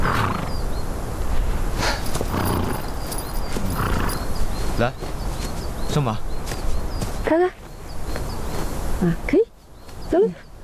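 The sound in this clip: Hooves of a racehorse clip-clopping as a rider mounts and sets off on a mountain trail, with people talking over the steady footfalls.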